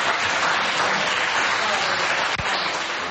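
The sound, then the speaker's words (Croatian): Applause in a half-empty hall of the Serbian National Assembly, steady dense clapping that holds at an even level throughout with one brief dip. “Osim aplauza u polupraznoj sali Skupštine Srbije juče nije bilo drugih reakcija na ovu čestitku radikalke Gordane Poplazić.”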